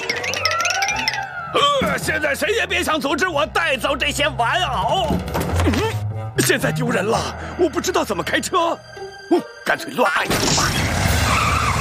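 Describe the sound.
Tires squeal and skid repeatedly as a car is driven wildly, loud, uneven bursts crowding over one another amid excited voices.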